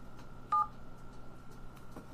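One short, bright telephone keypad tone as a phone is dialed, sounding alone over a faint, steady background hum with a few soft clicks.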